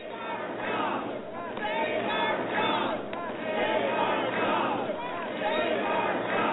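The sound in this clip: Crowd noise from an Energy Citizens rally opposing the Waxman-Markey climate bill: a steady, dense murmur of many voices with occasional shouts rising from the mass, fairly even in loudness throughout.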